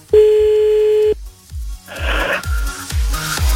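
A telephone tone sounds steady and loud for about a second as a number is about to be dialed. It stops abruptly, and several softer scattered noises and short bursts follow.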